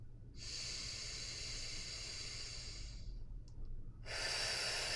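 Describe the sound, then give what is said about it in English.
Deep breathing during a guided stretching and grounding exercise with the hands closed in prayer position: a long, airy breath of about three seconds, a short pause, then another breath starting. “you'll inhale, exhale from there, and then you'll do it again.”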